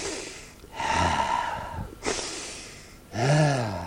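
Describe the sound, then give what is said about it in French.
A giant sniffing, voiced by a person imitating the sound: three long, breathy snorting inhales at fairly low volume, the last carrying a groaning voiced tone. “Le géant renifla”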